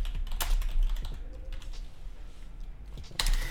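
Typing on a computer keyboard while notes are written in: faint, irregular clusters of soft key clicks with a louder burst of keystrokes near the end.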